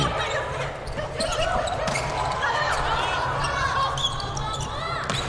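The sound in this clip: A volleyball is spiked during a match, with a few sharp slapping hits of the ball over a dense, continuous background of voices.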